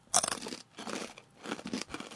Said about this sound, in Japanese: イカの姿揚げのホットチリ味。 うん。これもね、いいんすよね。じゃあちょっと。 どうぞどうぞ。 いただきます。